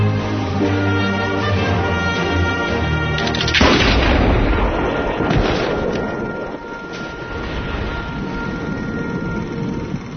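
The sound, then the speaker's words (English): A sudden loud blast from a finely crafted, ornate gun backfiring as it is fired. It breaks in after a steady tonal drone and is followed by a rough, rumbling wash of noise that slowly fades. “It backfired, killing him instantly.”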